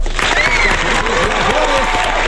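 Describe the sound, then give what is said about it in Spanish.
Studio audience applause and cheering on a television show as a guest is introduced: loud, continuous clapping with shouting, whooping voices rising over it. “¡Venga el aplauso!”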